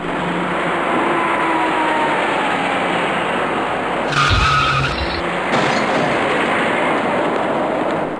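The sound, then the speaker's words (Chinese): A dark SUV drives up and turns at an intersection amid loud, steady road noise, with a brief higher-pitched whine partway through. “您注意看一辆开过来的深色越野车”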